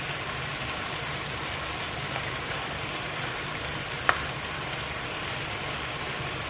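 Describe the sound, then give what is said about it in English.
Faint, continuous sizzling of a whole onion frying in a pan with meat, a steady even hiss with one brief click partway through. “The whole onion goes down in the pan. Correctly. This also slows down a bit the cooking of the meat.”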